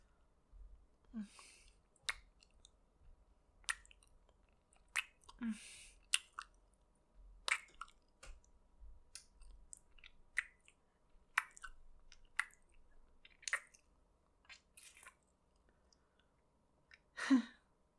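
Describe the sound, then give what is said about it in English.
Many short, wet smacking kisses planted on a face, arriving in irregular bursts of quick lip clicks and squishy pops with brief quiet gaps between them. “Hey, come here, stupid. I want to kiss your big dumb face again.”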